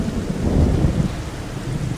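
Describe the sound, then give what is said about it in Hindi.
Heavy rain falls with rolling thunder, a continuous loud hiss of rain over a deep, low rumble that swells and eases throughout. “आ जाओ इधर आ जाओ, बारिश से बच जाओगी।”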